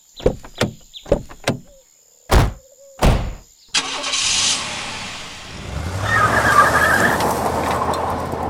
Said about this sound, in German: Der eine Mann setzt sich auf den Fahrersitz. Ich setze mich mit dem anderen nach hinten. Das Auto fährt los.